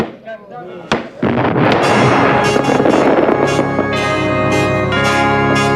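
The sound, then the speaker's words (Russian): Fireworks launch at an imperial celebration: a couple of sharp bangs give way to a dense, loud, continuous crackling roar mixed with ringing, bell-like tones. “На фоне взлетающих в небо фейерверков возвышается фигура царя Петра.”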